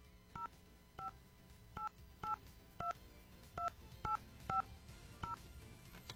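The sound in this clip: Telephone keypad tones as a contest winner's number is dialed: nine short, faint two-note beeps at slightly uneven intervals, with no talking.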